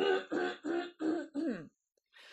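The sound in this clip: Throat clearing comes in five rough, harsh bursts in quick succession, then a short pause. The clearing is fairly quiet.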